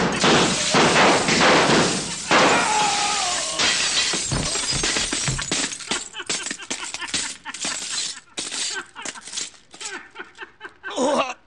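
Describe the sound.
Mirrors shattering as they are shot, a loud dense burst of breaking glass and thuds at first, then scattered crashes, clinks and falling shards that grow sparser and fainter, with a final sharp smash at the end.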